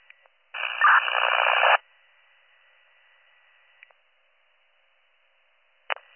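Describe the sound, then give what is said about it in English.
A radio transmission comes through as nothing but static: a harsh burst of noise lasting about a second, then a faint steady hiss broken by a few sharp clicks. “Alpha, your last is all static.”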